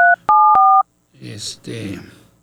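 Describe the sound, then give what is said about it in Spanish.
Touch-tone keypad dialing as a phone number is entered to call a friend: three short two-tone beeps in quick succession, then a pause before people talk. “deme la oportunidad de marcarle, a ver si tengo el éxito de comunicarme con él”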